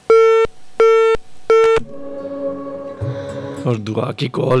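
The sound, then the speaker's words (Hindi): Phone-call disconnect tone: three loud, steady electronic beeps of the same pitch in an even rhythm, then people talking. “दुआ की call cut गई।”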